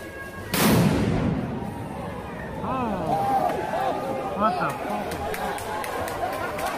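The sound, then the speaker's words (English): A bomb goes off at a protest in Portland, Oregon: one sudden loud blast, followed by steady crowd noise with shouting and chatter. “Look, look at these strong feelings as a bomb goes off in Portland, Oregon. Play that one for me.”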